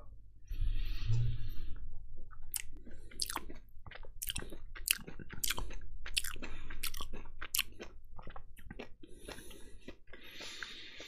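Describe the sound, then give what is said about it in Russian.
Someone chewing a tangerine: a steady run of many soft, wet, crunchy bites and squishes, quiet and close, with no talking. “Я ем мандарин.”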